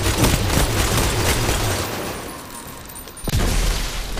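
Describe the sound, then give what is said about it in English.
Automatic weapon fire in the video game Destiny 2: a dense rattle of many rapid shots that fades out, then a sudden loud burst near the end, with no voices. “Oh, it's an auto fire. Oh no, this is auto fire. So I use both of these to fire.”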